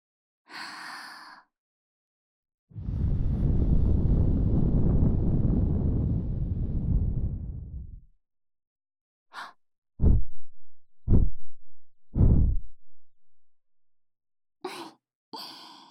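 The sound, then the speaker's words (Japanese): Breath blown into the ear during an ear-care roleplay: one long, soft, rushing blow of about five seconds, then several shorter breathy puffs and sighs in quick succession. “息吹きかけるとビクビクってしちゃいますね”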